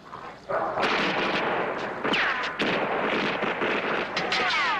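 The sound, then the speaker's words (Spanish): Heavy gunfire erupts in an action scene from the film First Blood (1982), a dense sustained volley of shots lasting several seconds after a quieter start. “¡Alto el fuego! ¡Alto el fuego! ¡Dije alto el fuego, maldita sea!”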